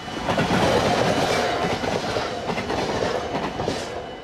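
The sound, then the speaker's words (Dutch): A train passes a level crossing with lowered barriers beside a station in Bussum: a steady, loud rumble of wheels on rail carrying a rhythmic clickety-clack, easing slightly toward the end. “ze staan allemaal keurig te wachten hier voor de spoorbomen. Die staan omlaag, trein komt eraan.”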